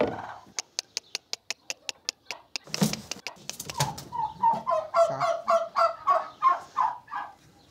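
Turkey hens clucking at a feeder they use as a nest: a quick run of sharp, evenly spaced ticks comes first, followed by a string of repeated, rhythmic fowl calls that grow steadily louder.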